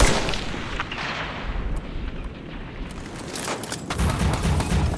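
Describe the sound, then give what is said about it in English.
A sniper fires from a tower in a combat scene, producing sharp gunshot cracks and booming reports over a dense, rumbling roar of battle noise. There are a few loud hits spread across the span. “I got a glint in the tower. Sniper. They just laced you with a target lock. Everybody, down. David, get down.”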